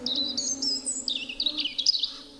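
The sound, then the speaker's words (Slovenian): Hungry baby birds chirp loudly in quick, high, twittering bursts that tumble over one another, with a faint low hum underneath. “Seveda lačni mladički že glasno čivkajo.”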